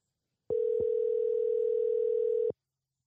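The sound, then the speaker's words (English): Telephone dial tone heard while a call is being placed: one steady, unbroken tone at a single pitch lasting about two seconds, with brief clicks where it starts and stops. “we are dialing up the world famous Freestyle Friday Turkey Killer TV”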